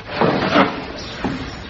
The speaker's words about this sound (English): Open the door